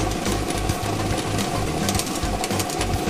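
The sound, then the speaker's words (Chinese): Lottery drawing machine spinning 30 numbered balls: a steady, loud mechanical whir and rattle with a rhythmic low thumping that runs through the whole stretch, no voices. “摇奖机已经正式启动了。通过镜头我们可以看到30个号码球在摇奖机当中正在快速的旋转着”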